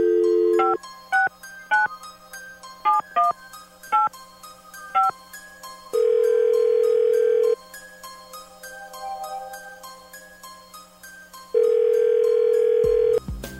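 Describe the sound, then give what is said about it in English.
Touch-tone telephone dialing: a quick series of short two-tone keypad beeps, followed by two long, steady ringing tones separated by a pause. “Dialing at random.”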